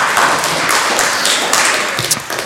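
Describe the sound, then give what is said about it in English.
A loud round of applause from a sermon audience thanking a helper: a thick, continuous wash of clapping that stays strong throughout and eases slightly near the end. “Give me a round of applause.”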